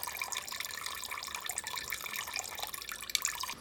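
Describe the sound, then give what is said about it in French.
Liquid drips from a wood-fired still distilling wine, a faint, continuous patter of many small droplets over a soft trickling hiss. “On entend le goutte à goutte qui fonctionne.”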